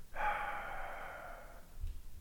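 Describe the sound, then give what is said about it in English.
A voice imitates God breathing life into a man with one long, breathy exhale. The airy rush starts abruptly, holds steady for about a second and a half, then fades. Nothing else is heard. “It's that the Lord God gets close to the man, face to face, and breathes, and just goes.”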